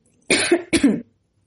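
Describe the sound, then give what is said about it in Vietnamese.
Two short, dry coughs from a man, sharp and close together, followed by silence. “Tống Phong ho khan.”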